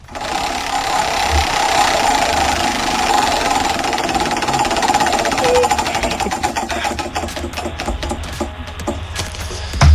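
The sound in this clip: Clicking ticks from a large prize wheel spun during an on-air giveaway, coming as a rapid run of sharp clicks that gradually spread apart and slow toward the end, over a steady wash of background noise.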